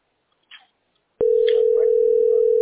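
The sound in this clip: A telephone dial tone heard while a call is being placed: a steady, continuous tone that starts abruptly and holds one constant pitch to the end, with faint voice-like sounds beneath it and a brief soft sound just before.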